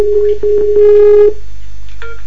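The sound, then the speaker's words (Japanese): Skype call ringing while it reconnects over a poor connection: several short electronic beeps, then a longer buzzy tone, and after a brief pause one more short tone. “スカイプの方が接続が悪くて今ちょっと繋いでますんで、もうちょっと申し訳ないですがお待ちください。 もう一回コール。”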